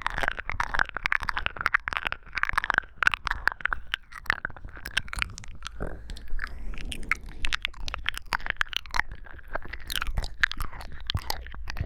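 Someone chews and crunches food they were offered to taste, checking whether it is sweet. Many quiet, irregular bites and wet mouth sounds continue throughout, with no talk.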